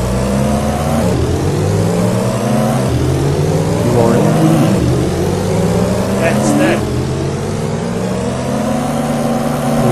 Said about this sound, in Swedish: Starta motorn. 3, 2, 1. Kör!